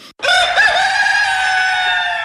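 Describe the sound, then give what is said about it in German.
A rooster crows once in a loud, drawn-out call that wavers briefly near the start, then holds a bright, steady tone for about two seconds before trailing off. “Der Gockel. Schaut zu unserem Gockel an, wie brav der steht”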